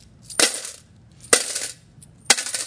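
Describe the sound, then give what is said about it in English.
Coins drop one at a time, metal striking metal, in three separate bright clinks spaced about a second apart. Each clink is short and fairly faint, with nothing else heard. “If the rich come up and they have a lot of coins and it's metal on metal, what's going to happen?”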